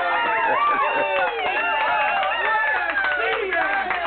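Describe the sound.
A studio audience cheers and applauds a returning guest on a talk show. Dense, continuous clapping mixes with many whooping, cheering voices, holding at an even level throughout.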